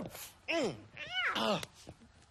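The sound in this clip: A cat gives two distinct meows in quick succession. Each one sweeps up and then down in pitch, moderately loud against a quiet background.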